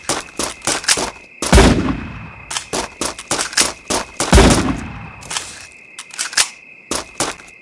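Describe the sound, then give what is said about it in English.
Machine gun fire rattles out in irregular bursts of sharp, loud shots, with two heavier, booming blasts standing out among many quicker cracks, and no voices. “Machine gun.”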